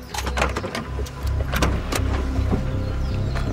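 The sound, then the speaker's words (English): A person wearing a backpack climbs out of a car, making a few sharp clicks and knocks of door and handling over a steady low hum. “puts his backpack on and exits the vehicle.”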